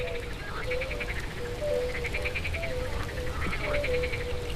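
Frogs croak their amphibian mating calls on a spring night, a dense chorus of rhythmic, pulsed trills. The calls come in repeated bursts, with higher rattling notes over lower ones, steady throughout and with no voices.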